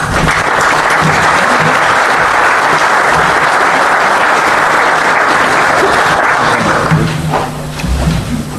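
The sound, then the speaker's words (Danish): Loud, sustained applause from an audience welcoming the evening's chef at a dinner event, a dense, steady clatter of many hands clapping that eases off near the end. “Jeg synes, I kan på forhånd udmærket give ham en hånd, for jeg ved, der venter jeg en oplevelse.”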